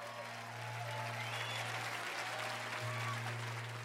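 A church audience applauding with hand claps in praise during a worship service. The clapping runs as a steady, sustained wash for the whole clip, with a low constant hum underneath.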